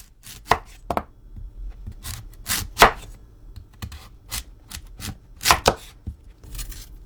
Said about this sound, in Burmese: ကစုံးဥတွေကို2စင်တီမီတာအထူအကွင်းလိုက်လှီးပါ